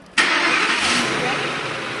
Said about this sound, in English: At 9 a.m., Mariana and Sam board the family's Ford Expedition for the 20-minute ride to Ace, the educational supply superstore.